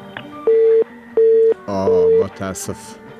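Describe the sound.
A busy tone sounds on a telephone line after a dropped call: three steady, evenly spaced beeps. A voice speaks over the third beep and briefly after it.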